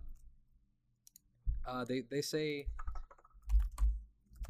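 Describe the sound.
Clicking of keys typing on a computer keyboard, brief scattered taps before and after a short stretch of someone talking.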